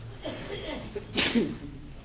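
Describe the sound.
A single sharp sneeze bursts out during a spoken lesson on Islamic creed. It is brief and noisy, with faint talk before and after it.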